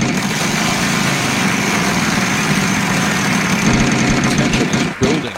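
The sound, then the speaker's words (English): A prize wheel spins during a football picks segment, giving a dense, steady rattling whir that holds at an even level for about five seconds before a brief dip and abrupt change near the end. “Wheel spins.”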